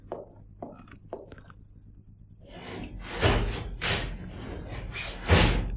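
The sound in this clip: Doors and windows being shut around a house in a Spanish radio drama of The Invisible Man: a few light clicks, then several heavy thumps and slams in quick succession, the last one loudest.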